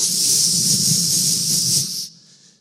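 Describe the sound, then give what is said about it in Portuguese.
A blowtorch flame hisses loudly and steadily for about two seconds, then cuts off abruptly, leaving a faint trailing tail. “Uma fé mais maçarico. Tchuf”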